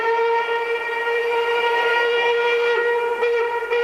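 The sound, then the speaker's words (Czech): Sustained whistle of an express train as it approaches, a steady bright tone with stacked harmonics holding loud and even for about four seconds, with no voices. “Náš ostře sledovaný rychlík 651 projel už Mýto, Kařízek, Zběroch, Cerhovice a blíží se...”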